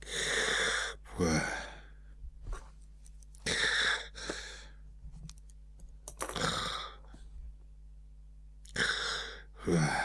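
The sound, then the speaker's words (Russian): A voice imitates a man snoring while asleep on a couch after dinner, his head on a silk pillow: several drawn-out, breathy snorts with rattly throat tones, separated by short quiet gaps. “Храпел он.”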